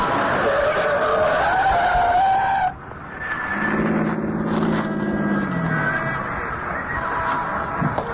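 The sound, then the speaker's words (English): A yellow taxi skids around a corner onto a snowy Manhattan street and stops against a snowbank: a loud, sustained tire squeal for over two seconds, then a lower engine drone that sinks as it settles. “A yellow taxi spins around the corner at 103rd and West End and settles to a stop astride a brown snowbank piled high on the curb.”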